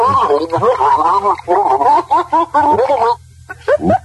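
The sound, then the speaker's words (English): A person gargles loudly as the champion of a gargling contest. The gargle is a voiced, bubbling warble broken into many short bursts, with a brief pause before a few final gurgles. “Let me play a gargle of someone who's our champion, our gargler, who you have to beat, okay, to win the prizes. Here is the champion gargle's gargle.”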